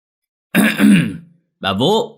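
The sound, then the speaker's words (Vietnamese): An old man clears his throat in two gruff, rasping bursts separated by a brief pause, loud against silence. “Lão hắng giọng gọi xuống dãy nhà ngang.”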